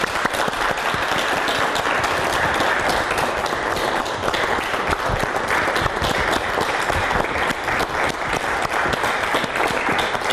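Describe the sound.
An audience applauds to welcome a parent invited to speak at a gathering. Loud, dense, continuous clapping holds steady for the whole stretch without pause.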